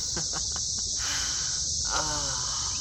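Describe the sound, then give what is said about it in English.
A chorus of a million or so cicadas makes a loud, unbroken, high-pitched buzzing drone that holds steady throughout, with a few faint lower sounds underneath. “You hear that? That is the sound of a million or so cicadas,”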